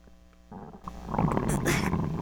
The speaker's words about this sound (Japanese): お腹もゴロゴロいってるし。